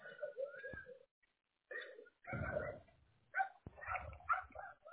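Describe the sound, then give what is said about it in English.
Several dogs bark outdoors during a walk, giving a scattered run of short barks and yips in uneven bursts with brief gaps. The barking stays faint throughout. “I'm out on a walk right now. You might hear a bunch of dogs barking.”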